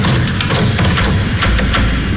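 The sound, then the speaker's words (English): A man bangs on the doors around the outside of a house: a rapid series of heavy, sharp blows cuts through a loud, constant rumbling noise. “The strange man walked around the outside of the house, banging on the doors and rattling the windows.”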